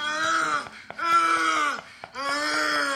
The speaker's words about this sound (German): Bist du sicher, dass es der Mann ist, der da stöhnt und nicht die Frau?